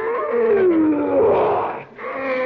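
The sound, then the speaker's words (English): A caged lion lets out a deep, sustained roar with a rough, growling tone. It stays loud, dips briefly near the end, then swells again. “That's that lion in that cage over there. Oh. Ferocious-looking beast, ain't he?”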